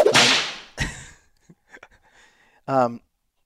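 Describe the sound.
A single sharp whip crack sound effect, loud and brief, set between short stretches of talk.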